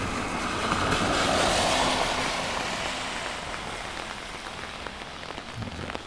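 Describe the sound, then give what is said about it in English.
Rain patters on an umbrella during an outdoor field recording, a steady, dense spray of drops that stays fairly loud through the first half and then eases slightly. “Of course, that you're hearing right now is mostly the umbrella.”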